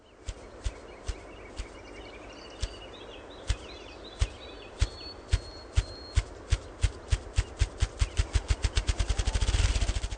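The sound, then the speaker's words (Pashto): Machine-like drumming of a bird's wings beating rapidly, about twenty times a second. Loud, low thumps start slow and evenly spaced, then speed up into a fast rolling blur, with faint birdsong behind. “دغه غږ چې د ماشین غږ ته ورته دی نیم مایل لرې هم اوریدل کیږي. د دغه مرغانو وزرونه په یوې ثانیې کې شل ځله شاته او مخته ځي”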